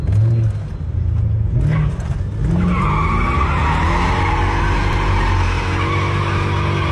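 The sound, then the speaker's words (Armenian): Cars speeding through city streets at night with tires screeching: a loud, sustained squeal of skidding rubber over a roaring engine, rising in pitch through the second half and heard alone without talk. “Գիշերային Երևանը հաճախ ցնցվում է նաև մեծ արագությամբ սլացող մեքենաների ձայնից կամ, ինչպես բնակիչներն են նկարագրում, ճռռիկներից։”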